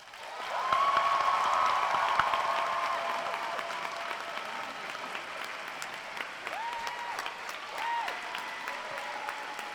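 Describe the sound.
Sustained audience applause welcoming Professor Davis at a lecture in New Orleans. The clapping is dense and lasts about ten seconds, loudest near the start and gradually easing.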